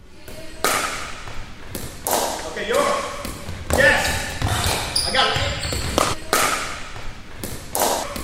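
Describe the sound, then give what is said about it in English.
Pickleball paddles strike the ball again and again in sharp, hollow pops at an uneven rally pace, with short exchanges of players talking between hits. “That's the sound of pickleball, America's fastest growing sport.”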